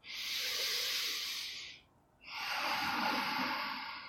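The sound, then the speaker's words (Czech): Deep breathing during a guided relaxation exercise: a long, airy rush of breath, a brief pause, then a second equally long, loud breath of rushing air. “Ještě jednou nádech.”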